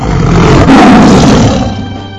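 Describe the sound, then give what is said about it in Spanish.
A tiger roars during a circus tamer's act: one long, loud, rumbling roar that swells near the middle and slowly fades toward the end. “Pinche tigre rugía y el domador así su cachetada. ¡Pinche tigre!”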